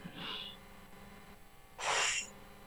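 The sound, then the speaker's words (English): A person takes a deep breath: two airy breath sounds, the second louder and longer than the first, with no talking. “Take a breath.”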